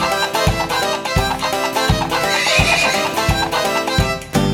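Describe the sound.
A pony's whinny rises briefly near the middle of a children's song, over music with a steady, regular pulse like a galloping beat.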